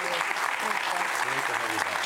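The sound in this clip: An audience applauds steadily to welcome a guest, with continuous clapping through the whole clip and voices talking over it.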